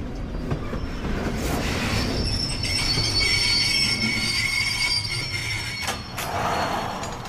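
Train wheels rattling on rails: a continuous, loud rumbling clatter with high, thin squealing tones from the wheels running through it.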